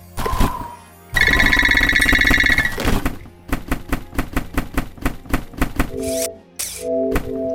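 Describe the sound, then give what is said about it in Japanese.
Gold coins scatter across the field in a video game, giving bright electronic chimes followed by a rapid run of short clicking blips. Two sustained, wavering tones close the sequence. “今からフィールド中、見てください、この金貨の音。散らばっちゃったので、そいつを拾いに行きます。”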